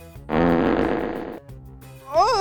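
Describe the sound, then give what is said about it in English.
A long, drawn-out fart rasps with a buzzing tone for about a second. Faint low sounds follow, and a brief voiced sound comes near the end. “Mega fart.”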